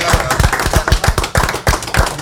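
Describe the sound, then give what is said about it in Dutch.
Audience applause comes as sharp, distinct claps in a quick, uneven rhythm, loud and crisp rather than a dense wash. “Applaus voor Han.”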